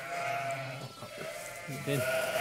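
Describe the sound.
Sheep bleating, a ewe and her lamb calling on a farm, with wavering, harmonic bleats that run almost continuously and grow loudest toward the end.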